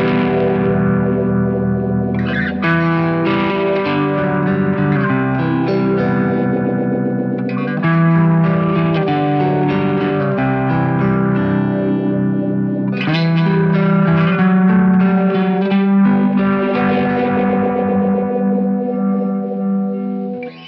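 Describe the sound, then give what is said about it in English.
Electric guitar sounds through a Univibe effect on a Kemper Profiler: sustained, distorted chords with a swirling, pulsing modulation, loud and continuous, changing chords a few times without any talk. “And if you turn the mix level up, you really hear the Univibe in the stereo field.”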